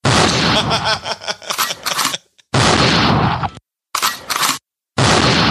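Gunfire-like blasts ring out as a gun salute sound effect: a few loud, broad, noisy bursts, each sustained for about a second, separated by short stretches of silence.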